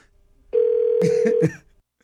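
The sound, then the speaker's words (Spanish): A telephone call rings out unanswered: a single steady ringback tone holds for about a second, with brief noisy bursts over its final part before it fades. “no está contestando la llamada. Sí, Vamos a intentarlo ya por última vez”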